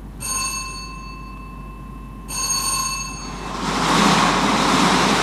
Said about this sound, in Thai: ต่อไปพนักงานออกเลขรางวัลจะทำการหมุนหน่วยตุ้มทั้ง6หน่วยตุ้มไปพร้อมๆกันเป็นครั้งที่2